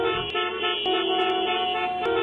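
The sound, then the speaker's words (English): Car horns honk in a loud, sustained, steady blare, with a few brief sharp clicks through it. “the old honking of the horns tells us that it's time to look at the VDOT traffic cams”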